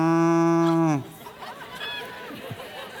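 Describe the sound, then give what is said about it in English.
A voice imitates a cow mooing with one loud, low, drawn-out call lasting about a second, then it cuts off into quieter crowd murmuring. “What about a cow? When you hear it go,”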